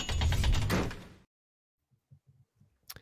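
Padlock locking sound effect: after a loud opening burst and a moment of silence, a few faint ratcheting mechanical clicks lead into one sharper, brighter snap at the end.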